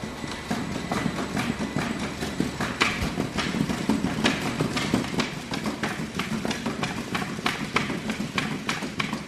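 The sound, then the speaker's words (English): The Fast Runner robot running on an elevated, plexiglass-enclosed treadmill set at 9 miles an hour: rapid, evenly spaced footfalls thud in a steady fast cadence over a continuous mechanical hum. “To demonstrate what Fast Runner can do, the robot is dropped into a plexiglass-enclosed, elevated treadmill that's been set at 9 miles an hour.”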